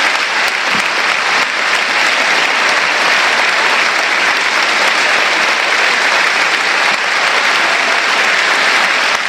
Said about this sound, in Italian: Applauso di sollievo del pubblico del Tardini per Piccoli